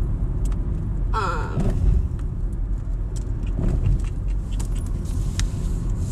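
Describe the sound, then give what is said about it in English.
Continuous low road and engine rumble from a car being driven around Bellingham, steady and fairly loud throughout with no clear voices. “See, maybe I shouldn't be driving while I'm doing this. But we're making it work.”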